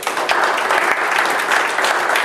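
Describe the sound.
Applause from an audience at a church service, loud, dense clapping that stays steady and unbroken for the whole stretch.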